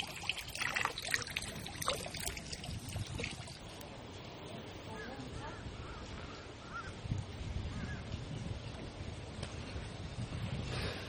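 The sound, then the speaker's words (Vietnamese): Water trickles steadily from a mineral spring in the courtyard of a Korean Buddhist temple, a soft continuous wash of sound. Crows caw intermittently, mostly near the start. “Quý Phật tử đi thăm chùa Hàng thì không có lo lắng phải bị đau bụng vì uống nước này đâu nhé. Nước này rất là nhiều khoáng chất và rất là ngọt, rất là thơm ha.”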